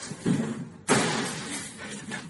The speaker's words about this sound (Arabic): قافل الباب؟ اوكي.